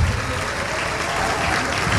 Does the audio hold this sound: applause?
yes